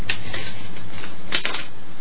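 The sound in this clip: Rustling of paper being handled, with a few crisp crinkling bursts over a steady hiss and no voices.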